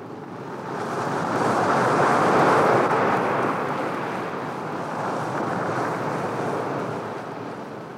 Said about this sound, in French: Elles arrivent au bord de la mer.